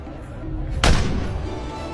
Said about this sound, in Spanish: ¡Están disparando, capitán!